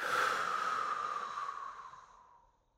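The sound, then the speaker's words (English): A single forceful exhale during a breathwork exercise: one long breathy rush of air that starts strong and fades away over about two and a half seconds, heard alone. “Deep breath in, forceful blowing out.”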